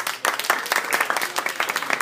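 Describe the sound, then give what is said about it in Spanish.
Audience applause at a comic-book talk event about Marvel Now, a dense burst of clapping that starts abruptly after a brief silence and carries on steadily for nearly two seconds. “yo me gustaría darles un aplauso a ustedes por asistir”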